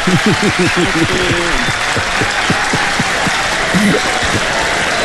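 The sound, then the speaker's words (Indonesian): An audience claps before a singing performance, with rapid, fairly loud clapping running throughout. A voice speaks over the clapping in the opening seconds and again briefly later. “Tepuk tangan dulu Tepuk tangan dulu.”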